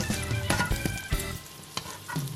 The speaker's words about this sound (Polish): Gdy widzimy, że krewetki są lekko zarumienione, ściągamy je z patelni.